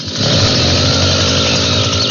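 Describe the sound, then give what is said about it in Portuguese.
A chainsaw starts up and runs, its engine swelling quickly into a loud, continuous buzzing drone that holds steady without a break. “liga a motosserra aí. Vamos ver. Vai.”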